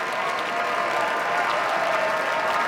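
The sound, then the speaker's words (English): Audience applause follows a violinist's encore of his own arrangement of Schumann's Dreaming from Scenes from Childhood, performed after Mozart's Fifth Violin Concerto. The clapping is dense and sustained, a steady wash at constant loudness. “they couldn't help and applaud at the end of Dreaming from Scenes from Childhood by Robert Schumann, Agustín Hodalink's own arrangement of that piece as an encore following his performance of the Fifth Violin Concerto by Mozart.”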